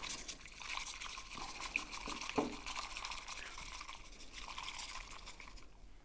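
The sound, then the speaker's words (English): Matcha tea being whisked in water at about 70 degrees Celsius: a quiet, rapid wet swishing and sloshing of fine brisk strokes, steady throughout with no voices. “So here, 6 degrees Celsius water, which I'm using. And then I just whisk it.”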